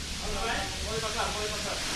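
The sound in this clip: Veal loin sizzling in a frying pan in a restaurant kitchen in Lisbon, a loud, steady hiss of frying that holds even throughout without pause.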